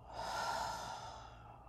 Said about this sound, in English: Let's take a deep breath and out.